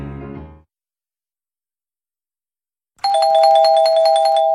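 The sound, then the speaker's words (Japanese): An electronic doorbell-style chime marks the close of a quiz's entry period. It rings bright and steady, with layered tones, after a brief earlier sound and a long silence. “クイズ締め切りのチャイムが鳴りました。”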